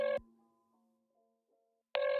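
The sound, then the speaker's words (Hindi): A telephone ringing while a call is placed: two short, bright electronic ring tones, one at the start and one at the end, with a fading tail between them and no talk. “इसे phone करता हूँ एक second.”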